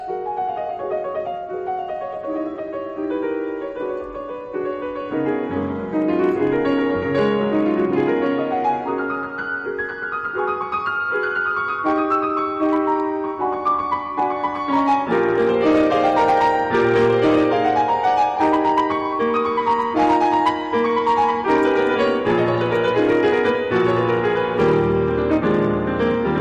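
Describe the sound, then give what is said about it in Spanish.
Piano music from a newly released album plays steadily without talk, with flowing melodic lines over a full, resonant lower register and rising density and loudness partway through. “Y escucha ahora este piano.”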